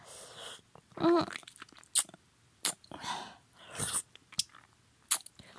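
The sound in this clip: Wet mouth sounds of someone sucking and crunching on a hard candy. Irregular smacks, slurps and sharp crunches come in quiet bursts separated by short pauses.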